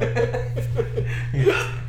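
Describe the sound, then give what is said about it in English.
A man hiccups again after laughing, giving several short, abrupt vocal catches mixed with soft chuckling, at moderate loudness over a low steady hum. “And then the hiccups are back.”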